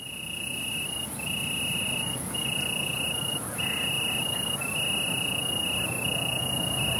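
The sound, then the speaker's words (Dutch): Tree crickets chirp in an evening chorus in the Millingenwaard floodplain in the Netherlands, a steady high-pitched trill that breaks into long bursts with brief gaps, with no voices. “Geluideman en krekelkenner Boudewijn Odé staat met verslaggever Gert Elbertsen midden in een boomkrekelavondkoor.”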